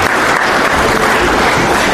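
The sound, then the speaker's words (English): A church audience breaks into loud, continuous applause honouring a couple married there 50 years ago, a thick, even roar of clapping that stays steady from start to finish. “So let's see them applause for that.”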